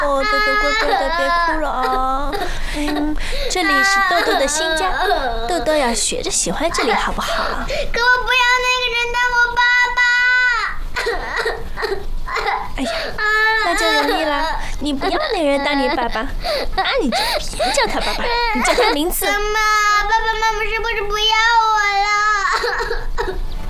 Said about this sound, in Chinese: 你怎么了？不哭不哭。